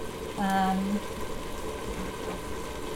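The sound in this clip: Water is poured into a pan to cook macaroni, making a steady, rushing wash of noise that lasts the whole clip, with a brief tonal hum near the start.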